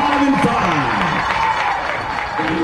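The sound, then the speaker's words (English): Eagleville fans cheer and applaud at a prep baseball state championship as their team receives the plaque for back-to-back titles, a dense, steady crowd roar that holds loud throughout with a voice talking over it. “Eagleville crowd on their feet here”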